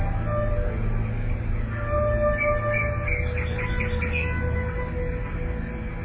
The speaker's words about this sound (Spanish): y esos pájaros que oyes, les ves volando de rama en rama.